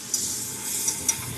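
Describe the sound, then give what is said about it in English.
An egg cooks on a griddle for a danbing with a soft, brief hiss of sizzling, fairly faint and even, broken by a few tiny crackles. “A lot of customers order danbing. Why don't I make you one? First, an egg.”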